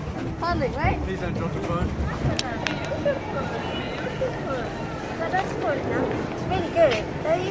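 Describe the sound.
Paddling a boat on a lake: water and wind noise run steadily beneath continuous voices talking, with a few faint knocks.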